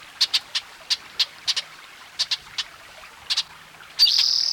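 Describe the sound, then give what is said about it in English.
Spotted towhee song: a series of short, sharp, high chips in small clusters, ending in a loud, sustained buzzy trill. “Spotted Towhee number 4.”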